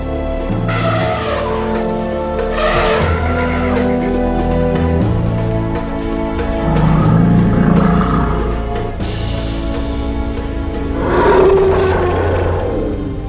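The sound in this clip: Elephant calls ring out in several loud, roaring, trumpet-like bursts, each swelling and fading. They rise over a continuous tonal background that carries on at full strength between the calls.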